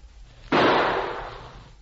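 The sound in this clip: A single gunshot, the last shot fired at an approaching pursuer, cracks sharply out of quiet background noise and then rings away in a long, fading tail.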